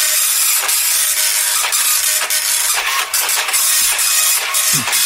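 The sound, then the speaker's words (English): A slow printer laboring through a print job, loud continuous hissing and grinding broken by rhythmic mechanical pulses repeating roughly every half second. “It's quite a slow printer, Harry.”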